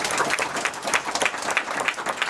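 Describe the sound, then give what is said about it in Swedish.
An audience applauds with a dense patter of many hands clapping, steady and moderately loud throughout, with no voices over it. “En applåd för alla svar.”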